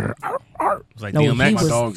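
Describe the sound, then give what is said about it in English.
A human voice imitates a dog barking and growling, with three short, sharp bark-like bursts followed by a longer, deep, rumbling growl. “I mean, he barked, but I mean, ain't no dog really gonna approach me. I mean, how was the bark though?”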